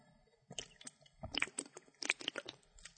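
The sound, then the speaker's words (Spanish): A quiet sip of water gives soft wet mouth clicks and small gulping sounds in quick irregular bursts, with no talking. “Y aquí necesito tomar otro trago de agua porque ya se me sacó la garganta de vuelta.”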